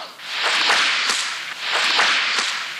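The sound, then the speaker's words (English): Two loud bullwhip cracks, each a sharp snap that follows a rushing swish of the lash. No other sounds are heard. “You will know it is time to turn the page when you hear the bullwhip crack like this.”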